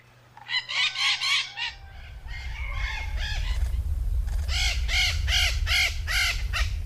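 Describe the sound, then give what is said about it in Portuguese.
A noisy flock of maritaca parakeets calling, with many harsh, raucous squawks repeated in rapid bursts that swell into a dense, continuous chorus over a steady background hiss. “E aí, você já sabe de quem é o canto? Quem disse maritacas acertou.”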